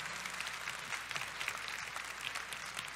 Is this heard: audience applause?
yes